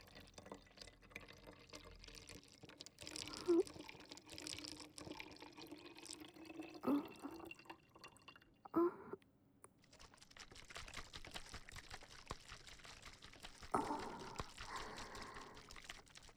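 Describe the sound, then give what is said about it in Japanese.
Cleaning solution is mixed in a bottle for a nasal rinse: quiet trickling and sloshing liquid with small plastic clicks and taps. A few brief, slightly louder splashes rise above a soft, steady background. “先ほどと同じ分量で、洗浄液をまずは作って”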